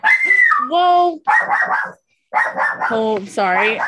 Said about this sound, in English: My door just like opened and my dog is like screaming.